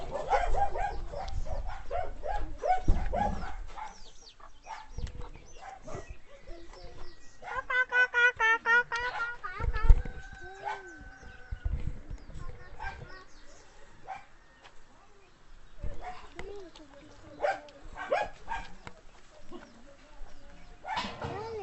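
Dogs bark repeatedly, sharp woofs and yips breaking out in many bursts with a few whimpering cries between them, fairly loud over a busy background, recorded while making animal sounds.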